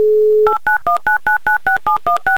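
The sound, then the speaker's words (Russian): Touch-tone telephone number being dialed: a steady dial tone cuts off into ten short, evenly spaced beeping key tones of varying pitch in a quick, regular rhythm. “Итак, набрали номер.”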